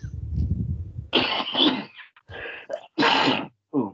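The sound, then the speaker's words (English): A person sneezes in a few sharp, breathy bursts with short pauses between them, after a low, rough rumbling start. The sneezes are moderately loud and heard alone. “Oh, God, bless you. May all the gods above and the gods below bless you.”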